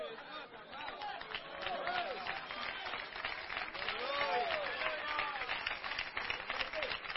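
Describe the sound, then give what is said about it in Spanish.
Audience applause at a religious gathering, a dense, steady wash of clapping mixed with crowd voices and shouts that runs throughout. “ese aplauso es para Donald Trump, ¿verdad, hermanos?”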